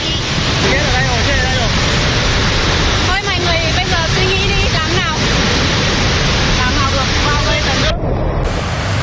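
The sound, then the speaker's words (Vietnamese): Muddy flash-flood water sweeps through a village in Lai Châu, Vietnam, carrying mud, stones and timber, a loud, dense, unbroken roar throughout, with a voice audible over the rushing water. “Dòng lũ từ nhiều hướng chảy cuồn cuộn, nhiều người rơi vào khoảnh khắc sinh tử.”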